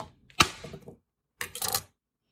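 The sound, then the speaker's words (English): A knife cutting a carrot makes one sharp crisp crack and a few smaller snaps. After a short pause comes a second brief cluster of crunchy chopping clicks. “She was cutting a carrot with a knife.”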